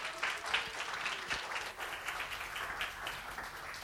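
Audience applause welcoming a pastor at a church gathering: a steady, dense wash of clapping that lasts throughout and stays fairly quiet.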